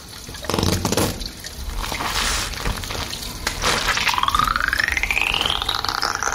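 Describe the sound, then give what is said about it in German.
Shampoo pours in a steady, splashing liquid stream, loud and continuous with no voices, and a rising, filling tone climbs in pitch over the final couple of seconds. “Okay, Sony, gib mir das Shampoo.”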